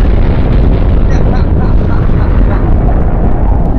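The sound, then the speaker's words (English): Nuclear bomb explosion sound effect: a loud, deep, continuous roar of broad rumbling noise that holds steady for the whole clip without fading. “Nuclear bomb sound for Kane Corns.”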